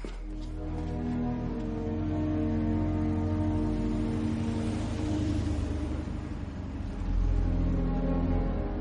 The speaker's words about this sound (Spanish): De día, un coche de la policía militar llega a la sede.